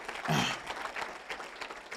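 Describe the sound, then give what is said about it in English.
Faint audience applause welcomes a speaker, a short burst of clapping that peaks early and then thins over two seconds. “If you could give him a round of applause, please.”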